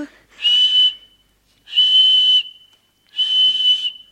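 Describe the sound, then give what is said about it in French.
A handheld whistle is blown three times in a steady rhythm, each blast a shrill, high, even-pitched tone lasting well under a second, separated by short silences, with no talk. “Quand vous voudrez que je vienne, vous n'aurez qu'à siffler avec ceci.”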